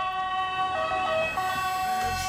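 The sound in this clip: An ambulance siren sounding, a loud, sustained tonal blare with rich stacked harmonics held steady throughout, over a faint low rumble of road traffic.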